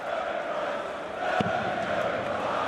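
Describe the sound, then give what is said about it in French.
A darts crowd sings in support of Gerwyn Price, a steady, dense wash of massed voices chanting at an even level with no clear breaks. “Ça chante pour Gerwen Price dans le public quand même.”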